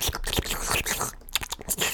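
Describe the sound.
A person uses wet mouth sounds to imitate a creature feasting on a unicorn's neck, with irregular, loud bursts of smacking, slurping and clicking.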